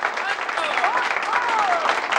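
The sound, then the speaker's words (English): Loud, dense applause from an audience after a recitation on stage. The clapping is furious and holds steady throughout, with voices faintly audible within it. “Diana and Jane clap furiously”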